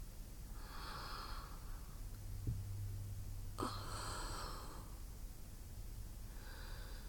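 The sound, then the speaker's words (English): Heavy, rushing breaths come in a few noisy bursts separated by short pauses, with a brief snort-like catch in between. The breathing is fairly loud and stands alone without talk. “Can you hear it, Father? Oh, that sweet rush of breath.”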